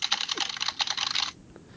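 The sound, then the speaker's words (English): Quick typing on a computer keyboard: a fast run of light, clicking keystrokes lasts just over a second and stops abruptly, followed by a faint stray click. “Oh, that will be an interesting status when I post that, because I typed that in Facebook.”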